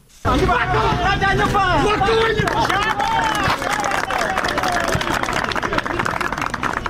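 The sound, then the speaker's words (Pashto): Villagers clapping and shouting at a volleyball match in Sayed Abad district, Wardak province. Loud excited voices and crowd babble come first, then a steady patter of clapping runs beneath the noise. “د کلیوالو په چکچکو بدرګا د والیبال دا سیالي د میدان وردګو ولایت په سید آباد ولسوالۍ کې د سپینو چنارونو په مینځ کې ترسره کیږي”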